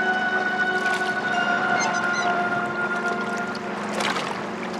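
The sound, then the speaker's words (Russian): A boat moving away along a river, with a steady droning hum and tonal whine over a wash of water noise that fades slightly toward the end. “Лодка удаляется по реке, оставляет позади ряд мелких островков.”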